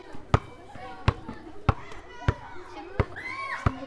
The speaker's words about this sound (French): Faire bondir le ballon.